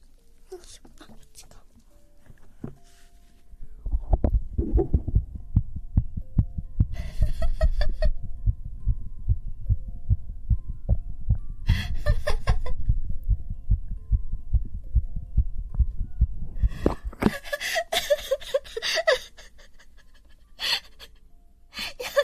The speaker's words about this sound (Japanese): すごいバクバク、待って心臓の音聞く、ちょっと待って、しょって心音いきますか